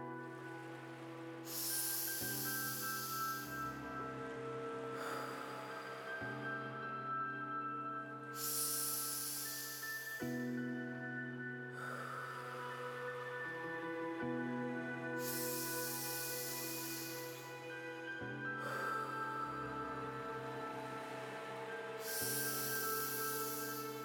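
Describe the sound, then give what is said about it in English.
Deep, full breaths during a breathing meditation: long airy inhales and exhales in a slow, even rhythm, quiet and soft over a gentle sustained musical drone. “So let's take 5 deep and full breaths together.”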